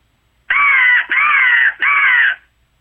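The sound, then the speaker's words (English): Three drawn-out caws from a handheld crow call, blown while turkey hunting in the woods. The loud, raspy calls run back to back with only short gaps between them, and no voices are heard. “then about 9, 10 o'clock, we use a crow call.”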